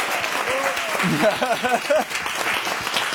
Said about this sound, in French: On applaudit Valentino Vivace avec ce petit top.